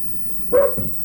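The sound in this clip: A dog gives a single short, mid-pitched bark that rises sharply out of a quiet background and fades within a fraction of a second.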